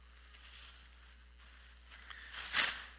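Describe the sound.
Pottery smashed inside a bag: one muffled, crunching crash near the end, following a few seconds of faint rustling.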